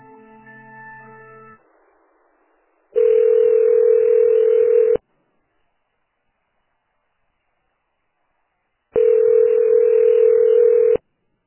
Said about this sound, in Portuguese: Tá bom, vou passar novamente, tá?